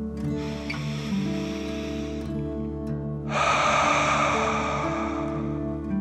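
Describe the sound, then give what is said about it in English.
A deep breath drawn in as a soft airy hiss for about two seconds, then after a brief pause a longer, slightly louder breath let out, both over a steady sustained musical drone. “deep dragon breath in and out. Again, deep dragon breath in and out.”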